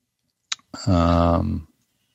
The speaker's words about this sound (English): We just heard the click, but not Jaws.